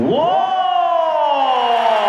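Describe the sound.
A crowd cheering sound effect bursts in loudly, a chorus of whooping voices that swells at once and holds a sustained roar for about two seconds.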